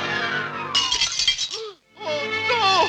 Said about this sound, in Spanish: hizo caer de las manos del gran duque la delicada zapatilla de cristal, que al rodar por el suelo se rompió en mil pedazos.